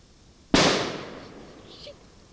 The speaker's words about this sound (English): Another standard CO2 bulb bomb in the same place for comparison.